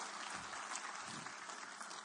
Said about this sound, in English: Come on, everybody. Give him a good clap offering.